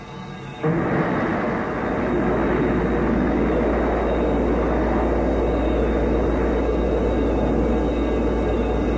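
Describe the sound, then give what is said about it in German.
A space shuttle lifts off after a countdown with a deep, loud roar that starts abruptly within the first second and holds steady and unbroken to the end, with no voices. “Achtung, Raumfähre, Countdown läuft.”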